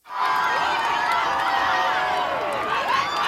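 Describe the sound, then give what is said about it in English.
Thousands of people lining the streets of Madrid to welcome Pope Leo on his papal visit to Spain, cheering together in a loud, continuous roar of many voices that holds steady throughout. “thousands of people line the streets of Madrid to welcome Pope Leo.”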